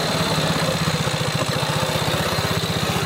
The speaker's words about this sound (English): That Merkel's new bike? Yes, she is.